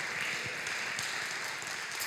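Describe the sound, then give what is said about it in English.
A church audience gives a round of applause for a birthday, a steady, crackling wash of many hands clapping at an even, moderate level. “Yeah, let's give a round of applause.”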